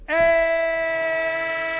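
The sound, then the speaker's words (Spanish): A train horn sound effect blares as a single steady, loud, harmonic blast lasting nearly two seconds, with no other sounds around it. “El tren de marcador. El tren de Radio Marca.”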